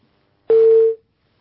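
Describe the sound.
A single steady telephone tone sounds on a phone-in call line after a caller's connection drops. It is one mid-pitched beep lasting about half a second, alone, with no voices.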